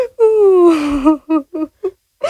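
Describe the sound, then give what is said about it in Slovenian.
A woman cries, opening with a long wailing sob that slides downward in pitch, then breaks into a few short, choked sobbing bursts separated by brief pauses. “Kaj si jokajo?”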